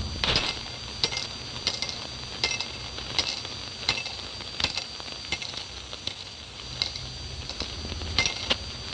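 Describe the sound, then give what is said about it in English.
Silver coins dropping into a pot, many bright metallic clinks in a quick, uneven patter over a steady hiss. “And there's the sound of silver dropping for today.”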